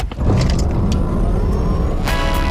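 A Ford Tourneo Custom Titanium van drives with a steady, loud, low engine rumble, with a few faint, brief higher clicks above it.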